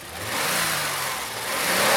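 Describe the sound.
Car engine revved by pushing the throttle cable by hand: a mid-pitched engine roar swells, holds, dips slightly, then climbs again toward the end, loud and alone.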